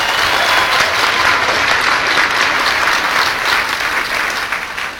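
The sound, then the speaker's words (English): Audience applause, loud and sustained, a dense wash of clapping that holds steady and tapers slightly near the end. “was that Roger Ailes applauding out there?”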